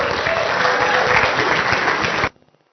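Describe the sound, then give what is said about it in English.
Audience applause welcoming a speaker to the stage at an evening gathering with baptisms: steady, loud clapping from many hands that holds for about two seconds, then cuts off abruptly. “so please give it up for Dan as we welcome him to the stage.”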